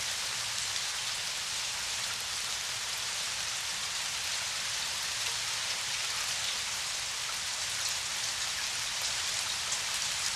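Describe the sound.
Steady rain falling, a dense, even hiss that holds at a constant moderate level throughout with no breaks, voices or other sounds.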